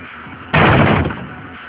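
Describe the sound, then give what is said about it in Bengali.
A study room door is broken down with one loud, heavy crashing impact that lingers for about half a second before fading. “ওপরে চলো, study রুমের দরজাটা ভাঙার ব্যবস্থা করো।”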